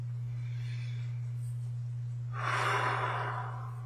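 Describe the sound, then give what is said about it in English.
A deep breath taken during a self-compassion tapping exercise: a faint intake of air, then a louder, breathy sigh-like exhale over a steady low hum. “Take a deep breath.”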